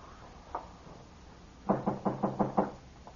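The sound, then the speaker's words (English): Knocking on a door: one soft knock, then after a pause a quick, even run of six firm raps on wood, each sharp and hollow, with no voices. “I was about asleep, Mr. Dillon. Couldn't figure who was knocking.”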